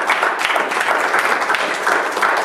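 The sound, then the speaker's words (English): Applause from a church audience, a dense, steady wash of many hands clapping at an even level throughout, with no voices standing out. “Give Him a hand of applause.”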